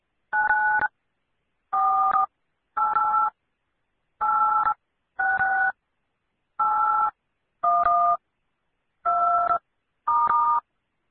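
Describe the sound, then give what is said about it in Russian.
Telephone number dialed in tone mode: nine separate dual-tone DTMF beeps, each about half a second long, arrive in an uneven rhythm with short gaps between them and no other sound. “Чтобы совершить звонок, наберите в тональном режиме номер телефона и нажмите клавишу звездочка.”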